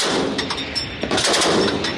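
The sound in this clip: Gunfire at a joint military exercise held by three countries as units move to the firing start point: a dense, continuous barrage of rapid, loud shots overlapping with no pauses.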